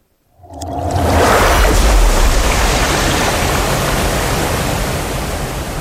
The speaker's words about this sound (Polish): W tym roku po raz pierwszy zobaczyli, jak zbiornik Racibórz Dolny wypełnia się wodą, jak Odra zalewa zarys wioski, który znajduje się dokładnie na samym dnie tej hydrokonstrukcji.